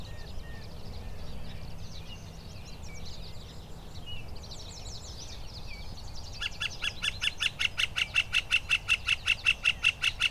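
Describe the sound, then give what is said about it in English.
A northern flicker calls in a conservation area in May, giving a long, rapid series of many loud, even, high notes at a steady rhythm. Softer chirping from birds comes before the series over a low background hum. “This is the call of the northern flicker.”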